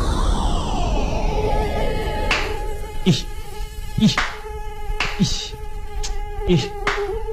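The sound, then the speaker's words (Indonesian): Mosquitoes whine with a thin, continuous high buzz where unwashed dirty clothes hang. Several brief soft taps are scattered through the steady drone. “banyak banget ya nyamuknya di sini. Pantes. Gimana nggak banyak nyamuk coba?”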